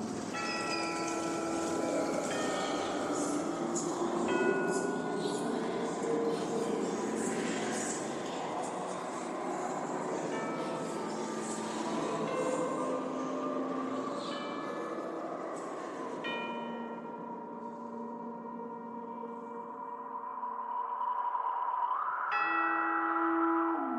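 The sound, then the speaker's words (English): Ride carriage rolling toward riders along a track, a steady continuous rumble with sustained ringing, bell-like tones layered over it, holding an even loudness throughout. “And now, a carriage approaches to take you into the boundless realm”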